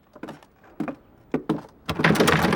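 A stuck attic door is forced open with a push: a few dull knocks and thumps, then a rougher, sustained scraping grind as it gives way.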